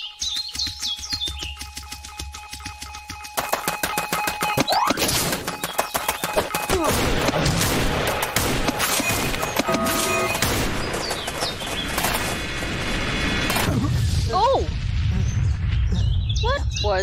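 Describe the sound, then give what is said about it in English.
A really big rocket launches in a video game: a dense, loud stretch of crackling bursts and chirpy, whistling effects, with a deep rumble swelling toward the end. “That sounds like a really big rocket.”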